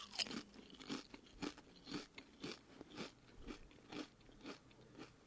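Crunchy potato chips in nakami soup flavour being bitten and chewed, giving a faint, regular series of crisp crunches at an even rhythm with no talking.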